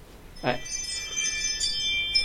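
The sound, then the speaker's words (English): A Ring smart doorbell sounds a bright, high chime whose ringing tones shimmer and hold for over a second after a short onset. It rings fairly softly against a quiet background. “Somebody's at the front door. Oh. I installed Ring. Okay, wow. We had wind chimes? Yeah. So it goes off on my phone.”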